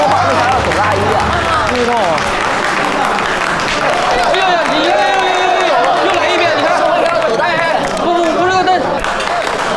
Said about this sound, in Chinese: 让我们以热烈的掌声隆重的欢迎四位导演。